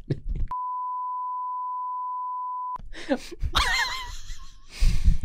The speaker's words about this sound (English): Just cut it. I'm just going to bleep everything. It's going to sound like the worst podcast we've ever done.